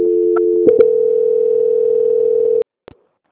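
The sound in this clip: A steady telephone line tone during a call transfer: one continuous mid-pitched hum for about two and a half seconds, broken by two brief clicks early on, then cut off abruptly, followed by a single short click.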